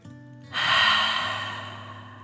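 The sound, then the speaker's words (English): A deep breath taken as a calming exercise comes as one long, breathy rush of air that starts abruptly and then fades slowly, heard alone. “Take a deep dragon breath in and out.”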